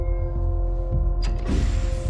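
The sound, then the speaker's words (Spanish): The lid of a horizontal laboratory chamber closes with a mechanical creak and a short clunk over a steady low hum, followed by a broad hiss. “La tapa de la cámara horizontal se cierra y un hombre sale del laboratorio.”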